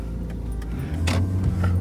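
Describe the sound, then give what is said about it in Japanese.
A car being driven, heard from inside the cabin, gives a steady low engine and road rumble with a few faint clicks and rattles on top. “車を運転しながらドライブ収録になります。”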